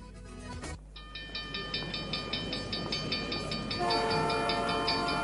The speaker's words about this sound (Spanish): Atención pasajeros, próxima estación en la vía libre del tren zonal.